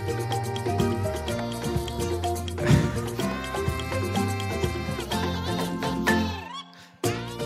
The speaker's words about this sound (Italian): Come si chiama? Il muggito di una balena.